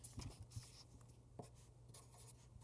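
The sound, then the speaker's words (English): A Sharpie marker writes on paper in a few soft, scratchy strokes that are faint and uneven, with a low steady hum beneath and no talk. “I didn't write it down. Ready? ASMR. That was a Sharpie.”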